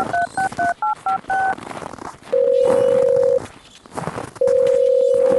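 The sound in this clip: Telephone keypad tones beep in a quick run as a number is dialed in France, followed by two long, steady ringback tones with a pause between them.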